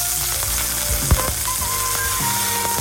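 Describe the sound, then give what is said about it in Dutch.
Hamburgers sizzling on a barbecue: a steady, crackling frying hiss with faint tonal sounds in the background and one brief thump partway through. “Dit klinkt wel heel sappig. Ja, dat is het. Is dat een hamburger barbecue? Dit is een hamburger die wordt graag gebakken.”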